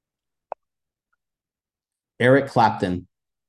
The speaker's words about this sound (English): I'm going to press and hold the button.